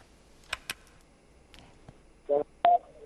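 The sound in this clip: Telephone dialing tones as a call is placed: a few soft clicks come first, then two short, loud touch-tone beeps close together near the end.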